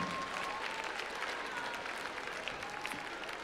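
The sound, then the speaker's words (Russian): Audience applause at the Big Moscow Circus on Vernadsky during an international charity festival: a continuous, dense patter of many hands clapping at an even, fairly faint level from start to finish. “Аплодисменты, аплодисменты и еще раз аплодисменты.”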